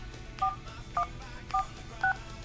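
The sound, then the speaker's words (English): Telephone keypad dialing tones as a mailbox number is entered on an automated phone menu: four short dual-tone beeps at an even, steady pace, each clear and alone over faint line hiss. “Please dial the 7-digit mailbox number of the person you are calling.”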